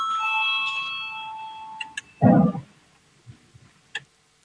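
A parliament's voting bell rings ahead of a vote as a steady, bright electronic tone for under two seconds, then cuts off, followed by a louder dull bump and a few faint clicks.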